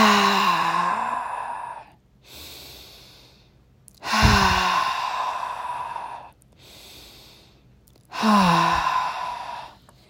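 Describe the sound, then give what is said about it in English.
Deep breathing during a guided meditation: three long, loud, voiced sighing exhales alternate with two quieter drawn-in breaths, in a slow, steady rhythm. “I want you to take in 3 deep breaths, pause at the top, exhale loudly, and pause. We're going to do it 3 times.”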